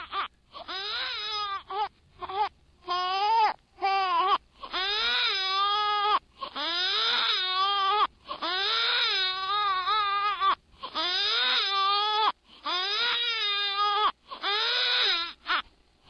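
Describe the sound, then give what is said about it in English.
A recording of a baby crying played backwards: a loud string of drawn-out, high wailing cries separated by short gaps, with no other voices. “they've actually done a study on this, that the most irritating sound to another human being is a baby actually crying backwards.”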